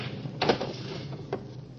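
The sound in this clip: A drawer is pulled open and rummaged through, giving two short wooden knocks and rattles about a second apart over a steady background hiss.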